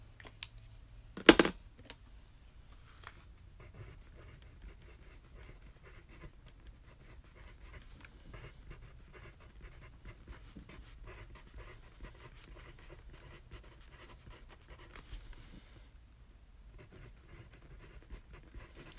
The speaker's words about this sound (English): And whatever you have left, write those down underneath.